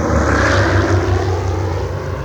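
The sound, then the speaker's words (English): A huge airplane lifts off at dawn with the deep roar of its massive engines, a loud, steady, throbbing drone with a low rumble underneath. The roar holds without a break, and no voices are heard. “of the dawn was shattered by the roar of the massive engines. Imagine the enemy's surprise when the huge airplane suddenly lifted off from within their very midst and flew off into the morning sunrise.”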